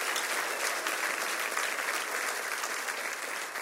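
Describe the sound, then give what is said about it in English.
A church audience applauds for visitors with steady, dense clapping that stays fairly even throughout at a moderate level. “So welcome to Red Rocks Church. Let's make some noise one more time for our visitors.”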